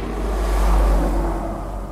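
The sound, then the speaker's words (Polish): A car drives along with a steady, low rumble of engine and road noise. The sound holds evenly and fairly loud for the whole stretch, with no voices over it. “Jedziemy do Parku Zdrojowego, do centrum, jak będzie trzeba, to też podjedziemy. Proszę skręcić tu w prawo.”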